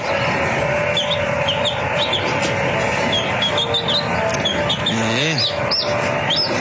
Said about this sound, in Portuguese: olha os pintinhos que fazem parte aqui da criação, né?